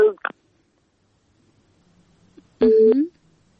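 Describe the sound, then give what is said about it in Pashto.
A telephone line tone marks a call to a radio show being cut off. A brief voice fragment opens, then after a quiet stretch comes a single steady, loud beep lasting about a third of a second. “بلی لیکه یې پریښله نه پوهېږم چې په تلیفون کرخه کې څه ستونزه ده خو اړیکې پرې کیږي”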